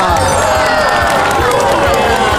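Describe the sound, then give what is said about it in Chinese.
A studio audience at a talk show applauds and cheers to welcome a guest from Russia, a dense, steady wall of clapping and shouting that stays loud throughout. “首先让我们用热烈的掌声欢迎今天的一日代表”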